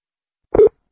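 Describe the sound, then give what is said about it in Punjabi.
A telephone tone sounds once after a call is placed: one short, mid-pitched electronic beep, clear and alone against silence. “ਲਓ ਫਿਰ ਆਪਾਂ ਕਾਲ ਕਰ ਦਿੱਤੀ ਹੈ ਤੇ ਵੇਖਦੇ ਹਾਂ ਕਿ ਕਾਲ ਚੁੱਕਦੇ ਆ ਜਾਂ ਨਹੀਂ ਚੁੱਕਦੇ।”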